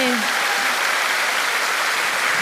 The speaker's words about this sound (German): Ein Applaus für die Zwillinge.